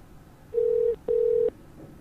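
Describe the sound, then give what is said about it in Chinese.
Telephone ringback tone as a call connects: two steady, mid-pitched electronic tone bursts with a short gap between them, fairly quiet and heard alone with no voices. “好啦，电话接通紧。”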